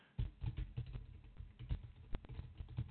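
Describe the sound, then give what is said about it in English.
Typing on a computer keyboard, many quick, soft key clicks in an uneven patter, faint and without any talk. “Yes, let me type it into the chat.”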